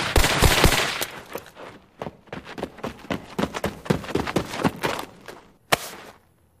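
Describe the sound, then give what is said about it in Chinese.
A burst of gunfire empties an entire magazine in one go: a rapid, loud string of many shots runs for about five seconds. After a short gap, one more sharp crack sounds, and then the noise dies away. “干嘛要打我？ 子弹打光了，啥时候咋办？ 是麦高， 是大侠，只有他才能干得出一下打光一梭子。”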